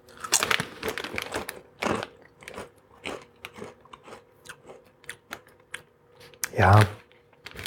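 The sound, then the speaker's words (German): Potato chips crunch as they are bitten and chewed from a small cinema-size bag; many sharp, irregular crackling bites with short pauses between them, ending in one louder, longer burst. “ich esse hier einfach noch so einen Chip”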